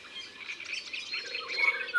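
Fluty songbird song from a blackbird-sized bird, bright yellow and black, hidden in foliage high in the treetops: short musical phrases and bright chirps, fairly faint and continuous, with no voices.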